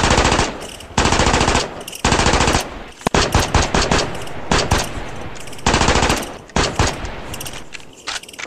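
Rapid automatic gunfire in a video game as a character shoots the queen: loud, rattling bursts of shots repeated many times with brief gaps between them.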